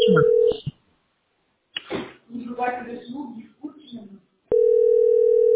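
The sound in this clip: A telephone dial tone hums steadily with a few short tones, then stops while a person speaks. The dial tone returns afterwards during a phone call to a clinic.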